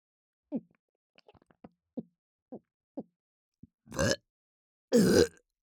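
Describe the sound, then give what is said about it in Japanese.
A person burps twice, each burp a loud, rough, low belch near the end, after a run of short, soft throaty sounds. “お恥ずかしいゲップが”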